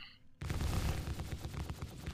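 Four guns open fire together in a video game. A short electronic tone comes first, then a loud, dense volley of rapid shots that rattles on to the end.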